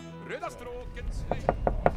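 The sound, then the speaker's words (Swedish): Four sharp knocks on the door of an old restaurant, closed at the time, come in quick, fairly even succession, each a crisp, fairly loud rap. “Knacka på här lite, knack, knack. Ta i dörren.”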